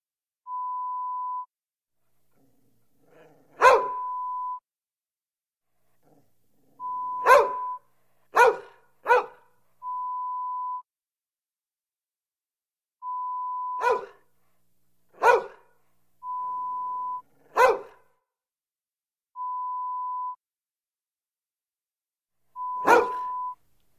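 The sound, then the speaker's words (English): Dogs bark indoors in short, sharp, isolated bursts, some in quick pairs, separated by quiet gaps, while a steady electronic beep recurs at regular intervals between the barks. “Play this hour-long recording on repeat play when you leave home and create the impression that you keep dogs inside your home.”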